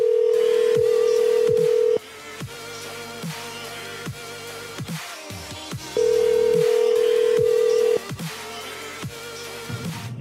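Ringback tone of an unanswered phone call: two long steady tones of about two seconds each, separated by a gap, with faint clicks and other muffled sounds between them.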